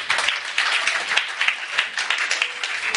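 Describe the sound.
Church audience applauding after a call to acclaim the Lord: dense, steady clapping of many hands that holds at an even, moderate level for the whole stretch, without voices standing out.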